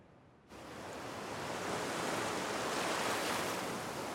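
Ocean surf breaks onto a little wet sand in a cove beneath steep cliffs. It fades up quickly into a continuous, broad roar of waves that swells slightly and stays loud and steady, with no voices.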